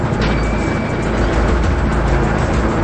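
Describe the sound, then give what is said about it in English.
A car drives away along a street at night, producing a loud, steady rumble of engine and road noise that continues without a break. “He drives on, his red taillights shining ominously in the darkness.”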